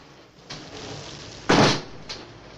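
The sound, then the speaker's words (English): An ornate frosted glass door of a London pub opening: one louder rattling thud in the middle, with a few faint knocks and clicks just before and after it. “Mike opens the ornate frosted glass door of a London pub, the Four in Hand”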